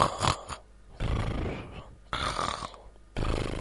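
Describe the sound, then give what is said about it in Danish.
A human voice imitates a wolf snoring loudly in a bed, giving several long, rough, throaty snores separated by short silent breaths. “snorkede, så huset rystede. Jægeren gik netop forbi og tænkte, der er dog løjerligt, som den gamle kone snorker.”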